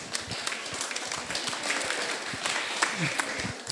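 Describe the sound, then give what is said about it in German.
Audience applause in a museum, a dense, steady patter of many hands clapping that runs continuously at moderate loudness. “Einen riesigen Applaus.”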